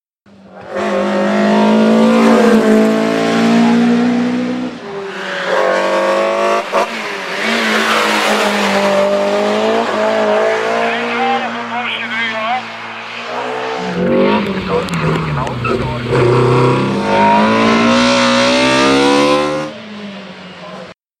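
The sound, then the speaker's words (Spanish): BMW E30 M3 engine revving hard in repeated rising and falling sweeps, with bursts of tyre squeal, loud and sustained for about twenty seconds. “Y la verdad es que es un coche mítico para una generación, para mi generación. El BMW E30, M3.”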